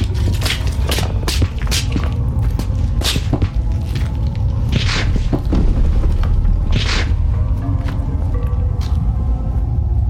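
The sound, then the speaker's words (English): Heavy footsteps descend stone stairs into a vault, a series of dull, irregular thuds over a steady low rumble. “As they made their way down the stone stairs into the vault, looking for evidence of strange noises, movements in the shadows, and eerie sensations.”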